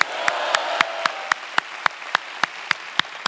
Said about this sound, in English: Let's give our Lord a big hand. Let's give our Lord a big hand.